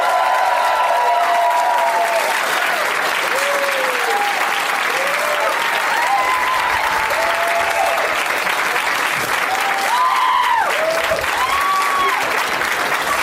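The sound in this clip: A live audience applauds three returning guests at a movie-themed comedy show. The clapping is loud and continuous throughout, with whoops and cheers rising above it.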